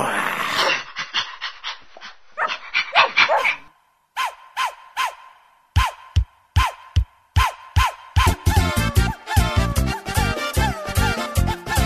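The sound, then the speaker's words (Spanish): A puppy barks many times, short spaced yaps at first that turn into a rapid, dense burst of barking toward the end, preceded by a few softer breathy yelps. “¿Qué es? Un perrito.”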